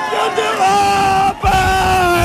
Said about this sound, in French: Dès le coup de sifflet final, des cris de joie